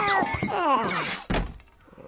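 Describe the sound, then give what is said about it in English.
A single dull thunk as a small body slams into studio glass, coming after a stretch of high, warbling, squeaky vocalizing and followed by a brief fading rattle. “And Alvin slams into the glass like a splattered insect.”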